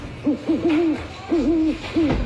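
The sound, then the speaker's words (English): An owl gives a few breathy, wavering hoots in quick succession, at a low pitch and moderate loudness, with short gaps between them and no talk. “Here's an owl bowling a strike.”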